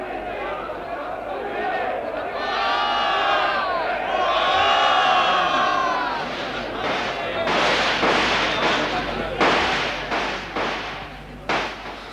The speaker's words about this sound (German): Die schießen wieder.